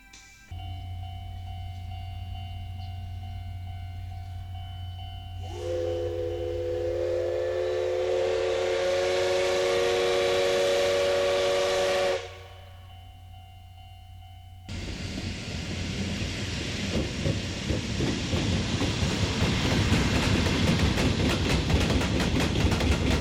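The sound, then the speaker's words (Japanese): Steam locomotive passing: a low steady hum, then a sustained multi-tone whistle that blows for several seconds and stops, followed by loud rolling rail noise and clatter. “次は SL が左から右へと通過します。”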